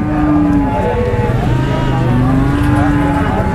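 Cattle low at a weekly livestock market on the historic Silk Road in Xinjiang: two drawn-out, low moos over steady, dense background noise.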